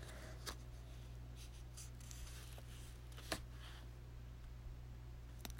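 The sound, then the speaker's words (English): Handwriting makes very faint, soft scratching strokes in short irregular bursts, with a low steady hum underneath. “I'm just hoping that writing this out is going to be a tool for me to start reflecting.”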